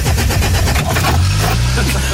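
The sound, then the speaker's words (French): Old engine being cranked and started, a loud, rough chugging rumble that steadies and climbs in pitch toward the end. “Ça devait être des missiles de 1937 qu'ils ont démarré avec une manivelle. 3, 2, 1, on envoie les missiles!”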